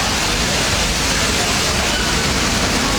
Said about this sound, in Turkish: AVM'nin otoparkını su basarken yürüyen merdivenlerden de yoğun şekilde su aktı.